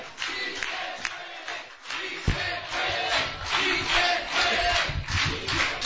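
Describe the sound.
An enthusiastic crowd cheers and shouts at a rally, a dense, steady roar of many voices with a few sharper bursts standing out.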